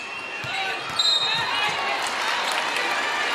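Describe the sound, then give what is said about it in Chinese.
A basketball is dribbled during a game involving Spain. A few bounces thump under steady background noise while people talk. “现在伯克斯的运球有点多”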